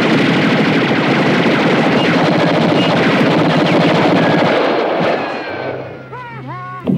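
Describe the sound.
Loud, rapid gunfire, heard as a dense, continuous barrage of overlapping shots that fills about five seconds, then thins and tapers off toward the end.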